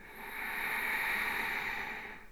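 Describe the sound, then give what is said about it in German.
One long ujjayi exhale through a closed mouth with a constricted throat: a smooth, hollow rushing breath that swells up and then tapers off over about two seconds, heard alone. “Achte auf die Enge im Kehlkopf hinten und atme ein. Ujjayi. Und atme aus. Bleib bei diesem Darth Vader-Geräusch, beim Ausatmen mit geschlossenem Mund.”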